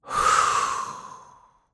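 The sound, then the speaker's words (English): A single forceful exhale during a guided breathing exercise, a loud airy rush that starts sharply and then thins out and fades over about a second and a half, with no talking. “it's deep breath in, forceful blowing out and emptying out the mind of all its mental content,”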